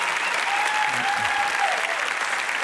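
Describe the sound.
Applause from a standing audience welcoming a guest speaker at a worship service: a dense, steady wash of clapping that holds at an even level throughout.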